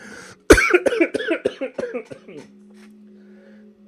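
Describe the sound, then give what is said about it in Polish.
A man coughs after choking: one sharp, loud burst followed by a rapid run of harsh, throaty coughs that fade out, then a short quiet stretch. “Przepraszam, aż się zakrztusiłem.”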